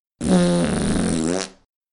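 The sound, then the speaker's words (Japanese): A long, loud fart, a sustained buzzy tone lasting well over a second that cuts off cleanly, heard alone. “ああ、また、おなら、出ます。”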